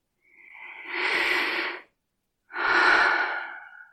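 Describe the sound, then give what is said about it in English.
Two deep breaths drawn in slowly, each a broad, airy rush lasting over a second, with a short silent gap between them and no talk. “leaving you free to breathe in deeply.”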